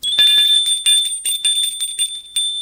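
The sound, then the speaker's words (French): A doorbell rings at a house door in the evening: bright, high metallic rings repeat in quick, uneven succession, with no voices. “Charles sonne chez Christine.”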